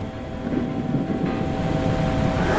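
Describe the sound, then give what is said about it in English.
Steady, loud engine drone of a rescue helicopter in flight, a continuous low rumble with a faint high whine above it, holding level throughout with no voices. “Rescue base, rescue base. This is Rescue 1. Agent Dean just jumped out of the chopper.”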